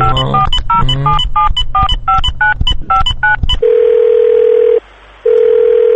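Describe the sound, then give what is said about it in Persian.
Telephone keypad dialing: many rapid dual-tone beeps in quick succession, then a steady single-pitch line tone that breaks off once briefly and resumes. “خب بزنین یه شماره دیگه بگیرم ببینم دیگه با کی میشه حرف زد.”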